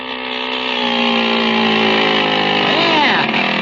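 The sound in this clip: The small motor of a motorized bicycle runs with a steady, buzzing drone, loud and continuous throughout, its tone holding nearly level from start to finish.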